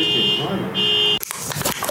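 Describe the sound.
A car alarm blares a steady, piercing high electronic tone with a brief break in the middle, then cuts off into a burst of voices and rough noise.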